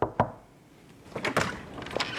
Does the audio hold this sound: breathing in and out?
no